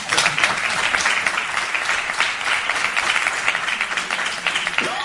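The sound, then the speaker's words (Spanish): Audience applause fills the whole stretch, a dense and steady wash of many hands clapping at an even, fairly loud level for about five seconds. “Aplausos.”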